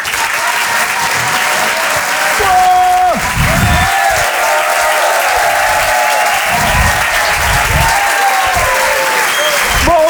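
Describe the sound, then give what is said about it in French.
Audience applause at a comedy show in Paris: loud, steady clapping from a crowd that fills about ten seconds without letting up. “Je vous demande de l'encourager. Faites du bruit, s'il vous plaît, pour Laurent Barra.”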